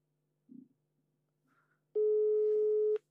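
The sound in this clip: A telephone call's ringing tone sounds as one steady, mid-pitched beep lasting about a second, preceded by a soft thump and a faint brief noise in near silence.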